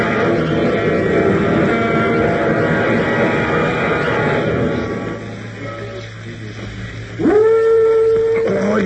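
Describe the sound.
A werewolf howl played through an amplification system installed in trees. A dense, noisy stretch fades, then a sharp rising wail climbs and holds a steady, sustained pitch with harmonics until the end.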